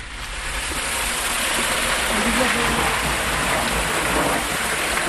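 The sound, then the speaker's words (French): Water flows through an underground gallery, moving only by the slope of the network toward a reservoir. It makes a steady, dense rushing wash that stays at a constant level throughout. “Donc c'est l'eau de la galerie qui vient alimenter un des réservoirs à peu près à 1 km de cette même galerie. Et l'eau coule uniquement grâce au dénivelé du réseau.”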